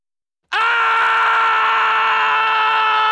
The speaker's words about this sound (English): The human voice. 1. Scream.